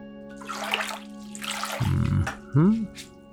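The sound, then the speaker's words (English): Water splashes and gushes briefly as something is washed out, a short rushing burst among a person's speech. “Here, let's wash that out too.”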